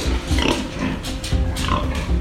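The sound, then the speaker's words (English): Pigs grunting and snorting on a smallish farm in coastal Fujian, China, that holds about 150 pigs; loud, dense and continuous grunts overlap one another throughout with no pause. “So I went to a pig farm on the coastal province of Fujian, and I went to see one of a really typical kind of smallish pig farm. It had about 150 pigs.”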